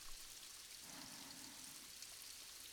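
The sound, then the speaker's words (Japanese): Rain falls in the mountains, a faint, even hiss of drops that holds steady throughout with no distinct splashes or voices. “この雨の音、山々から流れる水の音、”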